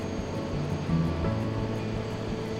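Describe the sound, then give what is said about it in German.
A helicopter engine starting up produces a steady, low droning hum with layered tones and faint regular pulsing. It stays even in loudness throughout, with no voices. “Der Lärm nimmt zu und ich glaube, dass ich es erkennen kann. Es ist das Starten eines Motors. Vielleicht ist es ein Hubschrauber.”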